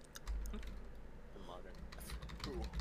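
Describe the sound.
Quick, irregular key clicks of typing on a computer keyboard, faint and continuous over a low background hum.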